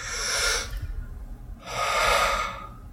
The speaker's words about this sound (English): there's a thing in yoga called breath of fire. That's whenever you kind of let out like a noise whenever you're exhaling.